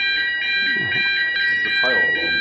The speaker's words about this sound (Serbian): Kažu da je ovo samo proba alarma za ovi... za požar, tako da možemo mirno nastaviti, samo da prestane alarm.